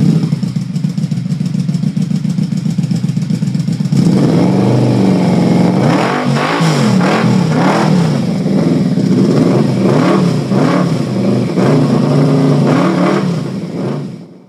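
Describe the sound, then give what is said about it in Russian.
A vehicle engine, part of a hover-bike taking off, drones steadily and loudly, then revs hard with a wavering pitch that climbs and dips repeatedly before cutting off at the end. “надел очки и завел двигатель”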